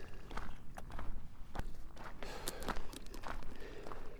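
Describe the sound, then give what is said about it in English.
Slow footsteps of a person walking outdoors: a steady series of soft, dull steps at an unhurried pace. No one talks over them. “Do have to walk a little slower though.”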